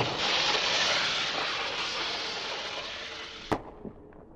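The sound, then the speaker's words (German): A firework cartridge ignites and explodes: a long, loud, steady hiss, then a single sharp bang followed by a couple of smaller pops. “Eigentlich könnten wir gleich eine zünden. Dann los. Okay, die Patrone rein. So. 3, 2, 1, 0 und Feuer!”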